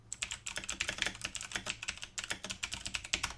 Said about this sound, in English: I love that your husband has this really fucking loud clickety-clackety keyboard so everybody can tell when I'm ignorant.